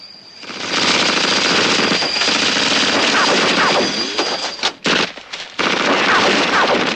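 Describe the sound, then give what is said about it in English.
Machine gun fire from a riverbank, aimed at a passing train as it slows toward a river bridge: a dense, loud, sustained rattle of rapid shots that runs almost the whole time, with a brief break near the end before firing resumes. “On the riverbank, a man in a helmet and mask aims a machine gun at the train.”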